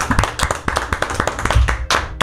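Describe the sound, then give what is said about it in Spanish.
Applause for a guest named on a Spanish-language show: many distinct, sharp hand claps in an uneven rhythm, clearly separated rather than blended into a wash, loud and without voices. “Se merece un aplauso porque no ha interrumpido negativamente este segmento. Un aplauso a Magda.”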